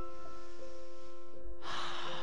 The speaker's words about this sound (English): And again, a deep breath in.